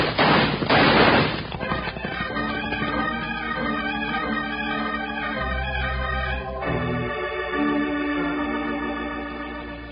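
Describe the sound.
Gunfire in a western radio drama shootout: a fast volley of loud, harsh shots bursts out at the start, then the noise settles into a steadier, lower-level layer that carries on to the end.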